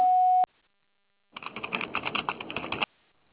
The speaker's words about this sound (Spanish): Tono, grabe su mensaje.